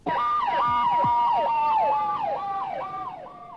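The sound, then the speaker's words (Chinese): Ambulance siren near Beijing's Tiananmen Square during the 1989 student hunger strike, wailing in many quick rising and falling sweeps. The sound is loud and alone, then fades slightly toward the end. “在广场附近经常听到救伤车的警号声”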